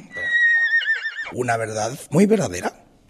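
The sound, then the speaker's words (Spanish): A horse whinnies, a high, shaky call that wavers and trails down for about a second, then voices talk over the remainder. “Pedro Dayan, un caballito muy especial.”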